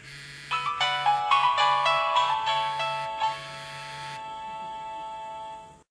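A mobile phone rings unanswered, its ringtone playing a bright melodic run of repeated notes over a pulsing low buzz. The melody stops about two-thirds of the way through, leaving only a faint steady hum.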